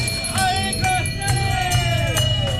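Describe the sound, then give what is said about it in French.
A crowd of Tournai residents rings handbells in the street to welcome the procession giants on a Saturday, a clanging mix of bright ringing tones and sharp strikes over a low murmur of the crowd. “Un grand raffut dans la rue des Cloches. C'est le comité d'accueil réservé aux géants. Beaucoup de Tournaisiens sont venus les saluer ce samedi. La consigne, c'était de prendre une cloche, de venir avec une cloche.”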